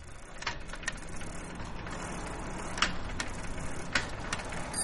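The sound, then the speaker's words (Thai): A bicycle being pedalled, its freewheel ratchet giving a fast run of light clicks over a steady mechanical whir, with a few sharper, louder clicks standing out. “นี่ทำไมแกปั่นจักรยานช้าจังฮะเร่งความเร็วหน่อยได้ไหม”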